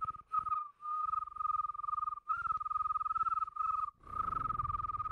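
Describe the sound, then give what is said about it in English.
A cricket chirping at night makes a steady, high-pitched trill of rapid pulses. It runs almost unbroken throughout, with a few brief gaps. “How about crickets, man? You ever hear a cricket at night?”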